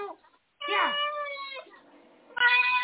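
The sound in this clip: A house cat meows loudly, with one long drawn-out wail and then, after a short pause, the start of a second meow. A faint, brief sound comes just before the first call.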